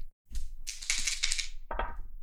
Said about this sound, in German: ab jetzt immer mit zwei Sechsseitenwürfeln